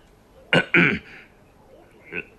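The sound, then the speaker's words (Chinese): An unhurried cough and throat clearing from a man seated in an armchair: two firm, rasping bursts close together, then a fainter one after a pause, in otherwise quiet surroundings. “不紧不慢地咳了一声”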